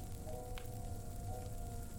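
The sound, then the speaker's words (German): Crackling campfire: a continuous dense hiss of tiny pops and crackles with an occasional sharper snap, steady and even throughout. “Das Feuer prasselt noch immer fröhlich vor sich hin.”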